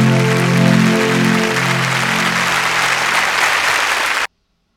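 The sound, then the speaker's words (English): A short show intro bumper: loud, dense applause-like crowd noise with a few low tones gliding downward, holding steady before cutting off abruptly into silence. “Let's run the bumper. Here we go.”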